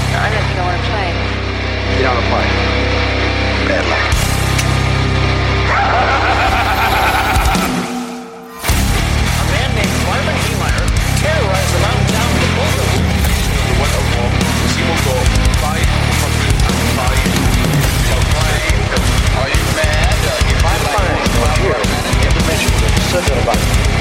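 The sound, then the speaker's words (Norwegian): Loud produced jingle opening a talk show: a dense, layered opening with sound effects, a brief near-silent break, then a steady beat-driven musical section with voices that carries on to the end. “Ok, men da kjører vi jingle”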